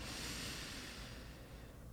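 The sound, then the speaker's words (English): Deep breathing in through the nose during a relaxation meditation: one faint, slow, airy inhale, steady and unbroken, with no talk. “And simply relax, take a few deep breaths, remember through your nose.”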